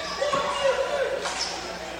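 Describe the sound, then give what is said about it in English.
A basketball is dribbled a couple of times by a player at the free-throw line before a second free throw. Soft bounces sit under continuous talk. “A couple of dribbles.”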